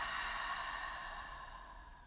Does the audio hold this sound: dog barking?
no

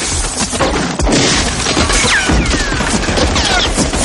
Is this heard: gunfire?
yes

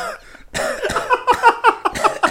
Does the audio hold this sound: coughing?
yes

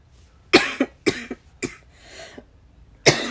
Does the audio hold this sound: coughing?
yes

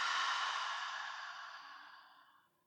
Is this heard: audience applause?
no

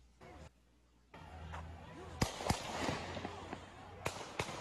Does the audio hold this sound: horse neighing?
no

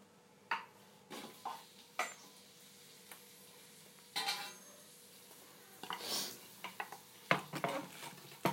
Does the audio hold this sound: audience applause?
no

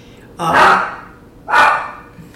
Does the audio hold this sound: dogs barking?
yes

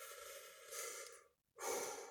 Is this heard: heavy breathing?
yes

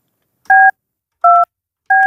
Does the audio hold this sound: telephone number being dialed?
yes

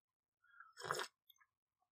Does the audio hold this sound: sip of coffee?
yes

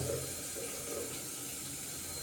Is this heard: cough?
no

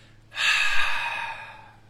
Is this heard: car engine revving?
no

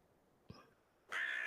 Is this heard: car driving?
no

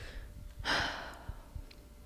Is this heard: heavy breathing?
yes

